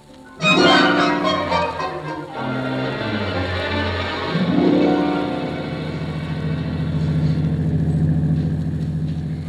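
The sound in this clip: A car engine drones steadily while driving through fog, with a low harmonic hum that swells in pitch a couple of times over a hissing wash.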